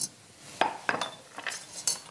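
Metallic clinks of a lid being set onto a hot cooking pot, a few sharp, bright knocks and rattles spaced over two seconds, with no talk.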